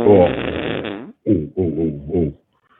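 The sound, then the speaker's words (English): A long, buzzy fart sound with a wavering pitch comes first, followed by three shorter sputtering bursts, loud and with no talk over it. “Sorry about that. Oh, I got crackhead farts.”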